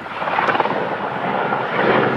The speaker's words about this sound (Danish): Helikoptere bevæger sig gennem kulsorte skyer og kaster vand ned på det store flammehav, der breder sig over de knastørre græsmarker.